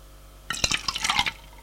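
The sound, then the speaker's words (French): Water running from a tap into a green plastic watering can, a short burst of splashing and trickling that starts abruptly and carries a few bright drip-like accents before ending. “prend un arrosoir en plastique vert et un bras en métal gris et remplit l'arrosoir d'eau”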